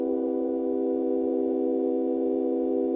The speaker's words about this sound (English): I made it turn into like a glass harmonica by, you know, using, like, wetting my finger and running it around the rim. So I took that and I sampled it and I turned it into like a sort of synthesizer sound.